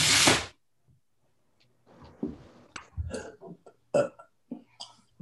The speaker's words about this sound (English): Did someone just burp? Was that a burp?